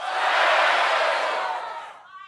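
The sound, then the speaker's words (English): A studio audience at a late-night show shouts out five-letter word guesses all at once, forming a loud, dense roar of overlapping voices that holds for about two seconds and then drops away sharply. “Everyone in the audience, shout out a five-letter word.”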